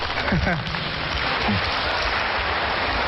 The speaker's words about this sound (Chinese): 谢谢大家给我们这么热烈的掌声。